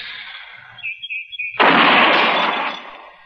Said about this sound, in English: Yeah, it's hitting where it's aiming, all right. I guess Andy got the kink out of it. Mm, he always does. Takes old Andy a month of Sundays to fix a gun, but once it's done, it's done right. Yeah. Well, there's no point in burning up any more ammunition.